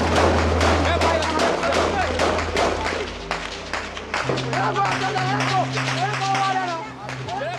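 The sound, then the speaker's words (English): Combat gunfire and explosions from actual front-line war footage, a dense barrage of sharp cracks and thuds in rapid bursts, with voices talking over the shooting. “James and Nick encountered an almost incessant onslaught of bullets and bombs. This is actual recording from their footage.”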